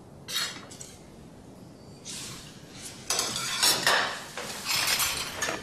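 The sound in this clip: Plates and dishes clink and clatter while rice is being served, a scattered series of light, bright knocks and rattles at irregular intervals with no one talking.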